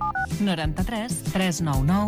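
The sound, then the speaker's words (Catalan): Two quick touch-tone keypad beeps as a telephone number is dialed to call a taxi, followed at once by a person talking. “Truco a Radio Taxi Catalana?”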